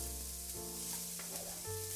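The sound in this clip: Onions sizzle in a frying pan over a gas flame, giving a quiet, continuous frying hiss with faint scrapes from stirring. No one talks.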